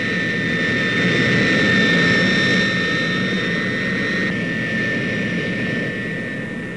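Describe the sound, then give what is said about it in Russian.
A laboratory airplane climbs into the air behind a carrier aircraft, its engines giving a steady, broad jet roar with high whining tones that gradually fades toward the end, with no talk. “Следом за носителем в воздух поднимается самолет-лаборатория.”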